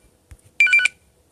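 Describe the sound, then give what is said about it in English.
A telephone ringing in one short electronic burst, a bright warbling tone of rapid pulses that lasts about a third of a second, loud and alone against near silence. “sorry about that if you just heard the phone ring.”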